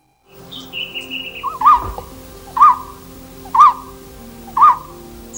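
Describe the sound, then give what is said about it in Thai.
A golden-throated barbet calls loudly from a treetop on a high mountain, giving four evenly spaced, ringing notes about a second apart, with a thinner, higher whistle just before them and a faint background hum. “นกโพระดกคางเหลืองที่ส่งเสียงร้องดังจากยอดไม้จะพบได้เฉพาะบนดอยสูงเท่านั้นจึงพบเห็นนกชนิดนี้ค่อนข้างง่ายที่ดอยอินทนนท์”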